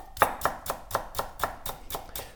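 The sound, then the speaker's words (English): A knife that needs sharpening chops red onion on a cutting board, with a steady run of crisp, evenly spaced thuds at a brisk, regular pace. “I just want to hear the sound it makes when you cut onions and chives.”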